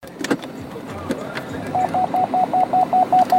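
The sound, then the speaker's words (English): Electronic beeping sounds as a steady run of short, identical high tones at an even, fairly quick pace. The beeps follow a second or so of scattered clatter and low background noise. “sorry about that fucking beeping”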